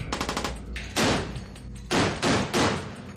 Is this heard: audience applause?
no